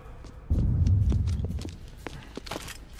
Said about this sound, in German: Die Ritter stürmten aus dem Saal.